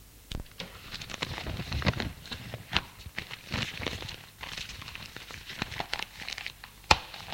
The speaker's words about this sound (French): Le père plie son journal.